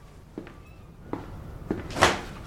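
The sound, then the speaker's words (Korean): A door is pushed shut, giving a few soft knocks and clunks before a louder, sharper final thump as it closes. “문 닫고 나가.”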